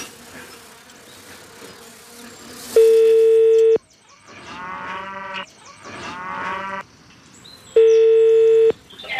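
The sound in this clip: An outgoing telephone call rings unanswered: two steady ringback tones, each about a second long, sound several seconds apart, with a buzzing, droning sound filling the gap between them.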